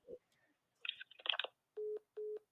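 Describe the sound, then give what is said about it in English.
A mobile phone sounds with a few short crackly bursts, then two evenly spaced, steady mid-pitched beeps of equal length. “No, that's my phone.”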